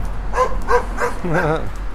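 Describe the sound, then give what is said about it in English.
A dog in a car gives a few short, sharp yips followed by a longer, wavering whining cry over a steady low rumble. “Dog in that car.”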